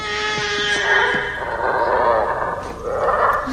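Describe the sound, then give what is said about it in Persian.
A sick cow on a large farm lets out a strained, unusual bellow, a rough harmonic cry that wavers and carries on loudly for several seconds without a break. “این صدای چی بود؟ صدای گاو بود. شبیه صدای گاو نبود. اون یه گاو مریضه.”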